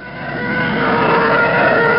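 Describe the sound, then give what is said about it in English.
A jet fighter pass-by screech sound effect built from a car driving on a wet road blended with an elephant scream: a harsh, continuous roar that builds in loudness, then holds steady. “The screech of the sort of jet fighters as they go past was a mix of a car driving on a wet road and an elephant scream.”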